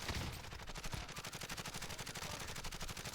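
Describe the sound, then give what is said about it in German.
Automatic gunfire in a shooter video game, many rapid shots in one continuous burst with a tight, regular rhythm, loud throughout. “Ah, hier ist ein Gegner, zwei Stück. Ich schieß drauf.”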